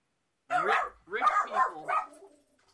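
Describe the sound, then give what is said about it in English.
Dogs bark at the door in a few sharp, moderately loud barks, one short bark followed by a quick cluster of three. “I think there's a rich person at the door. My dogs are highly trained professionals.”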